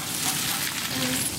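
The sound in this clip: Chicory sizzles in a pan in a narrow kitchen, giving a steady, dense crackling hiss with no pauses.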